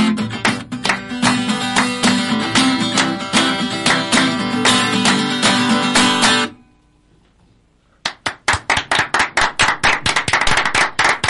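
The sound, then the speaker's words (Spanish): An in-house audience applauds with dense, loud clapping for about six seconds. After a brief pause, the clapping resumes in a steady, rhythmic unison beat. “El público que está acá adentro es el que ha aplaudido.”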